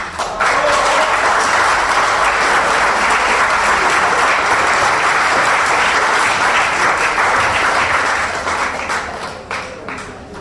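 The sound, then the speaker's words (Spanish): Applause from attendees at a community advisory council assembly after a unanimous approval: a loud, dense burst of clapping that holds steady for several seconds, then thins and fades into a few scattered claps at the end. “Yo proponía un aplauso.”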